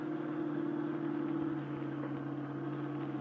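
A car's engine hums steadily while driving, a quiet low drone with a faint dip in level near the middle.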